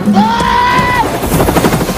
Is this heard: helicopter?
yes